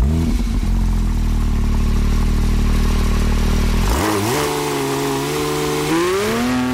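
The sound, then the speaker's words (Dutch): Street-version Porsche car engine running loud and steady, then revving with the pitch stepping up around the fourth second and climbing again near the end, with no talk over it. “Dat was het geluid van niet de Porsche van Bas van Kamperdijk.”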